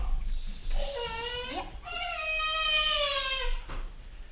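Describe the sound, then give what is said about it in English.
A fussy, hungry baby cries in the background with two drawn-out, wavering wails, the second longer than the first. “You guys can hear some fussy baby in the background. It's because he hasn't eaten in 10 minutes.”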